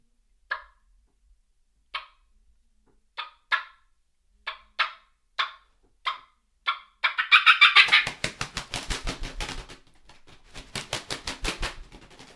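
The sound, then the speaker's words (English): A hand-held turkey call imitates two wild turkeys flying down: a slow series of sharp, clucking calls, then rapid, loud fluttering wing beats in two bursts, the second softer at first and building again. “But here is mine with the wing combined.”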